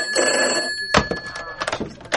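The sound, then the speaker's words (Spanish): A telephone rings with an incoming call, a steady high electronic ring with bright overtones that continues throughout, joined by a few short, rapid pulses in the second half. “Aguarda, tengo otra llamada.”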